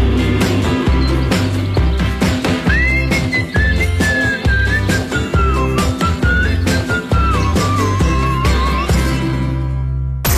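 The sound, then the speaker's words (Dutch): A person whistles a melody, a clear, high and slightly wavering tone that glides from note to note over loud, steady music with a firm beat, lasting through the whole clip. “Even lekker fluiten.”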